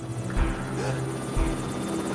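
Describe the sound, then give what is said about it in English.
A helicopter taking off gives a steady, throbbing rotor drone throughout, with two heavier low thumps in the first half. “The helicopter pilot pulls back on his joystick and the helicopter takes off.”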